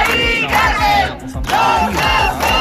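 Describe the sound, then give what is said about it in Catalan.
Protest crowd chanting outside the Spanish government delegation in Barcelona, a gathering of more than a thousand people against an eviction. Loud massed voices shout in a steady rhythmic cadence, with a brief dip before the chant resumes. “Més d'un miler de persones es van reunir ahir a la tarda davant la delegació del govern espanyol a Barcelona en contra del desnonament de la Mari Carmen.”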